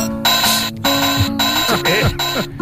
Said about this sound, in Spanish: Calidad, Vaya bombo, mira. Ojo. Suena ahí.